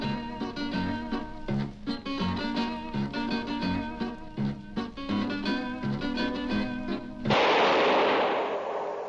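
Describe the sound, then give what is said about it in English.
Gunshot blasts out abruptly after lively zither music, a single loud, harsh burst of noise that cuts the music off and trails away for a couple of seconds. “That was the shot that killed Clay Martinez.”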